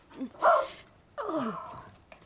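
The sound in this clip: A dog vocalizing in a chatty, talkative way: two drawn-out moaning utterances separated by a short pause, the second sliding downward in pitch, moderately loud with little else around them.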